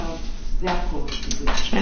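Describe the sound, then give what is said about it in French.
Spoons and dishes clink at a table during a meal, light metallic taps and knocks scattered among people talking. “Prends cette cuillère, elle est propre. D'abord, tu as une cuillère là-bas. Ne? Tu as une cuillère, tu as deux cuillères. Ouais, j'ai pas mal de cuillères.”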